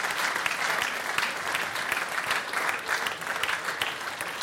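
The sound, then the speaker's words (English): Audience applause at a live show, kept going to welcome the next act onstage: dense, steady clapping that stays loud and even throughout, with no voices standing out. “why don't we keep that applause going for our next act?”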